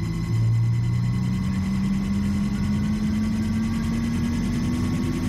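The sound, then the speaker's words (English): A sphere powering up and spinning faster gives off a steady mechanical drone whose low tone slowly climbs in pitch, over a dense rumble and a faint, rapid high-pitched pulsing. “Sphere seems to be powering up. Spinning faster.”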